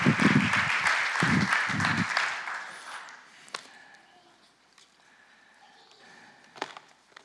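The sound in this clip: An audience at a morning church service applauds to welcome a speaker. The clapping is loud for about two seconds, then fades away, leaving a few faint knocks.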